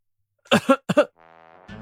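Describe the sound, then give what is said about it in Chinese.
An awkward cough, a few short harsh bursts of throat clearing followed by a brief voiced hum and a final rough catch, fairly quiet and heard alone. “我尴尬地咳嗽了一声，然后直接转移了话题。”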